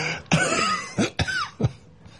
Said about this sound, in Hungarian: Köhögjön.